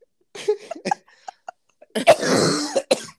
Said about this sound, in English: Oh, and you're coughing on our professional podcast.